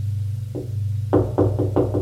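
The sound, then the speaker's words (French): Knocking on a door: one soft knock, then a quick run of five louder, hollow knocks over a steady low hum. “on frappe à sa porte.”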